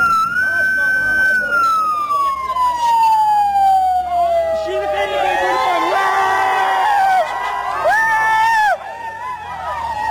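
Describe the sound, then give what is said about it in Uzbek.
A police car sounds a loud siren while surrounded by dozens of people. It first makes a long falling wail, then quick warbling whoops, with crowd noise underneath. “Tasvirlarda o'nlab odam qurshab olgan IB mashinasining qattiq signal berayotgani, so'ngra mashinaning katta tezlikda haydab ketilgani hamda odamlarning xursandchilik bilan baqirgani eshitiladi.”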